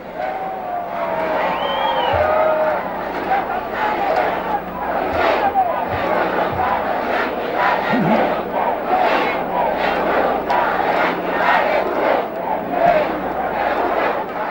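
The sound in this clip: A young crowd cheers and chants for Fidel Castro in repeated swelling bursts of shouting, loud and rhythmic, with voices rising out of the mass.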